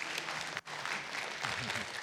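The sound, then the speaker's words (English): Audience applause after a song at a worship gathering: many hands clapping in a steady mass, broken by a brief dip early on, with a voice calling out under the clapping near the end. “Give Mark a hand clap.”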